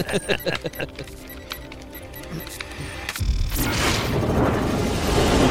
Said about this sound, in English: These are all the guns rushing in.